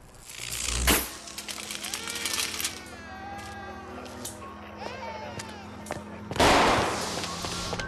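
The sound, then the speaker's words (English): Sparks exploding from a damaged pole at a nighttime car crash, two sharp crackling bursts with the second longer and louder, and a steady low hum with scattered tonal sounds between them. “As he walks towards it, another explosion of sparks lights the night sky.”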